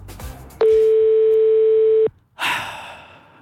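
A telephone dial tone sounds while a call is being placed. It is a single loud, steady, mid-pitched tone lasting about a second and a half, followed after a short pause by a brief breathy rush of noise.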